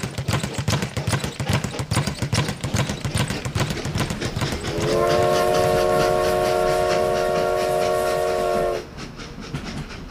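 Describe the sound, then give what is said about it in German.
Train leaving Paris heading east: a rhythmic clatter of wheels on rails runs throughout, then a long, steady, harmonic horn tone sounds over it for about four seconds before cutting off, leaving the rolling noise. “Der Zug verlässt Paris in Richtung Osten.”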